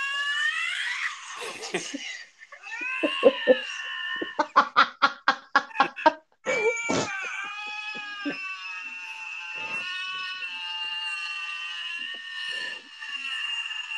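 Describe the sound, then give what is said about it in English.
A male lynx calls with loud, harsh, wavering yowls. Midway comes a rapid run of short pulsed cries, followed by long, strained, drawn-out wails that trail off into quieter grunts. “if I was the male lynx here and the female lynx was making that noise, I would be looking the other way. But the sad thing is, he's making the same noise.”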